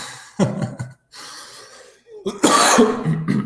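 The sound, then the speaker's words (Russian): A man with a persistent month-long cough hacks in two harsh clusters of coughs, separated by a quieter stretch of raspy breathing, with gasping intakes between the loud bursts. “Может, кто посоветует мне, как от кашля вылечиться? Я устал уже, честно говоря, месяц кашлять”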